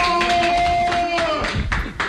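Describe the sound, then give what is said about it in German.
Applause in a radio studio: a short burst of clapping with sharp, uneven hand claps, mixed with other sound, lasting only a couple of seconds. “können wir auch mal Applaus. Ja. Das war echt Party im Studio.”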